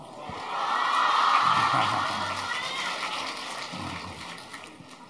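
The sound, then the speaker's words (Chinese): Audience applause at a Buddhist gathering, congratulating the head of a radio station. Dense, broad clapping swells in quickly, holds steady for several seconds and eases off slightly near the end. “现在让我们用最热烈的掌声恭喜尊敬的卢军宏台长。”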